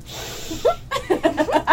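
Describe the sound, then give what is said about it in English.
A big sniff, drawn as a breathy, hissing intake of air lasting under a second, followed by a run of short, voiced chuckle-like bursts. “I'm going to give her a big sniff.”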